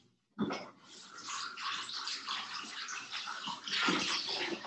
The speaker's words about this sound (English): I just washed out his bowl. And then I'm going to dry it.